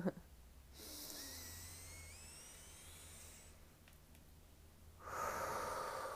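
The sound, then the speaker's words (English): A person takes a deep breath: a long, airy breath lasting several seconds, then a quiet pause, then a second strong breath near the end, alone over low background hum. “I feel like I'm getting off tangent here, so I'm going to take a deep breath”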